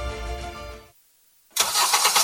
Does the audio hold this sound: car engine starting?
yes